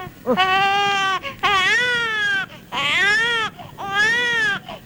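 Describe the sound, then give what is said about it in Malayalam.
Children cry at night in four long, wailing sobs, each a loud, high, tremulous cry with wavering pitch, separated by brief gasping breaks. “കുട്ടിയോളെ കരച്ചില് രാത്രിയിൽ കേട്ട തീരെ ഉറക്കം വരില്ല, അതുകൊണ്ടാ അടച്ചോ.”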